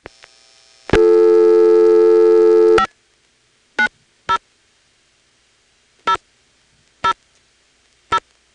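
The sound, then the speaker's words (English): A telephone exchange trunk in Hoadley, Virginia, signalling: a loud, steady, buzzy tone lasting about two seconds, followed by five short, sharp MF tone pulses at uneven intervals. “After the flash, it'll MF the last four digits. You can hear that softly in the background.”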